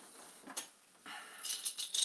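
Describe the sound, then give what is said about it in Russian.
Dice thrown onto a surface make a few faint, light rattles and clicks in short, irregular bursts. “Ну что, будешь меня мучить киданием кубика, или ты согласишься уже, что на 25-й раз я, наверное, все-таки уже могу? Буду мучить киданием кубика, обязательно буду.”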